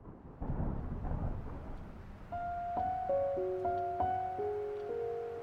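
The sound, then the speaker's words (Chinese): Heavy rain with thunder: a dense, steady rush of rain and low rumble, joined partway through by sustained musical tones that hold over the downpour. “我这里雨下的特大，还打雷。”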